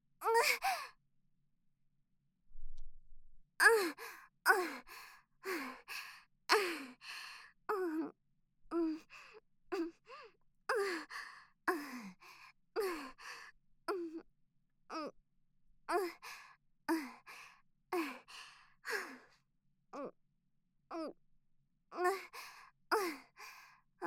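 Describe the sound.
Heavy, deep breathing comes as many rapid breaths in a steady rhythm, each a short rush of air. A brief silent gap falls near the start, and no words are spoken.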